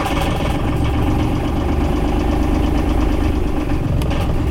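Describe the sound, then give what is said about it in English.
A boat motor drones steadily as the vessel heads out of a marina harbor toward open sea. The loud, continuous engine hum holds an even pitch and level from start to finish, with no voices. “After getting some coffee at the marina store, I motor west out of Boot Key Harbor and turn left toward the Straits of Florida.”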